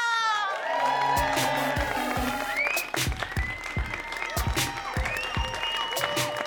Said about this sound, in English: Please put your hands together and welcome to the stage your hosts, Speedy, Rose, and Camille!